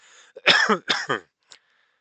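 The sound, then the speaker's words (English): A short fit of harsh, raspy coughing: two loud, throaty coughs in the middle, with a faint small cough before them and a quieter one trailing after, and no speech. “wow, this cough is killing me”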